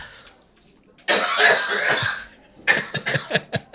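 Someone coughs hard after inhaling whiskey. A long, harsh, rasping bout is followed by a run of short, sharp coughs in quick succession.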